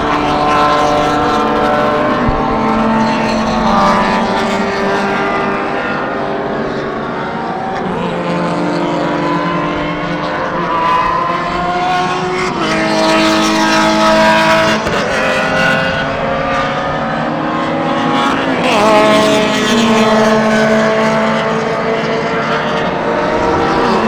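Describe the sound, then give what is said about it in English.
Race cars of about 200 horsepower roar past on a track, lap after lap, their loud engine whines sweeping up and then down in pitch as several cars pass one after another, with no voices over them. “here come the cars again, so we're going to have to be quiet for the length of time it takes for the cars to go by, because they're so loud.”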